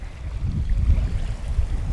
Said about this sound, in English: What you can hear is the sounds of the ocean, and if we're lucky, some birds